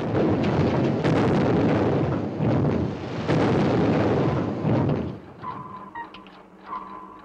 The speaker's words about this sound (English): There are explosions all around.